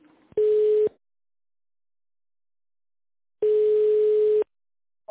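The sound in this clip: Telephone line tone while a call is transferred: two steady, mid-pitched electronic beeps, the first short and the second about a second long, separated by roughly two and a half seconds of silence.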